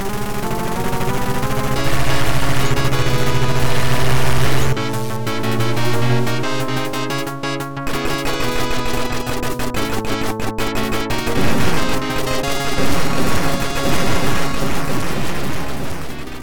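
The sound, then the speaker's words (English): Arcade video game music generated by a Yamaha FM sound chip: loud, dense, continuous synthesized tones layered with busy melodic lines and sharp percussive hits, playing without pause. “Sound chip is a Yamaha YM whatever. And it sounds like this.”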